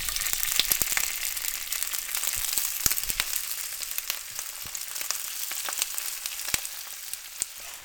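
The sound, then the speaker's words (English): Myeok seaweed frying with ground ginger and garlic in hot sesame oil in a cast iron skillet, giving a steady hiss of sizzle laced with many sharp crackles and pops, with no talk. “Throw the sesame oil in the cast iron skillet and getting it hot, and then I'm going to add the ginger and the garlic ground up. Then we can throw the myeok in.”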